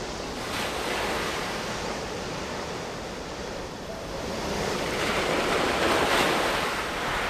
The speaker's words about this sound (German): Ich liebe das Meer.